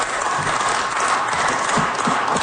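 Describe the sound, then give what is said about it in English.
Tired, subdued clapping from legislators in the Manitoba Legislature chamber during an all-night budget bill debate, a moderate patter of hand claps with a few sharper claps toward the end. “Some tired claps there. They're all sitting in the chamber debating the government's budget implementation bill.”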